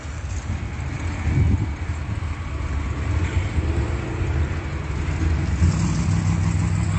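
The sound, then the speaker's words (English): Car engines on a street used for daytime drag racing: a steady low rumble that swells near the start, then builds slightly toward the end, with no talking over it. “And this street here is like they just drag race during the day.”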